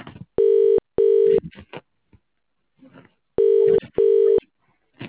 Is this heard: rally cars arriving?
no